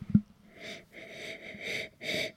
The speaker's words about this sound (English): Actually, I'll give it a sniff first.